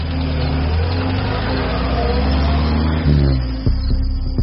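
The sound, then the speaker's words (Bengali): A car's engine rumbles steadily as it moves off along a street at night, then drops and thins out, followed by a few sharp knocks near the end. “গাড়িটা নিয়ে থানার দিকে এগিয়ে গেল।”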